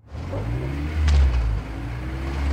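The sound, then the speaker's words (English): A silver hatchback drives away with a low, steady engine drone that swells briefly in revs midway, then continues as a constant rumble. “He waits as the two men get into the silver car and drive away.”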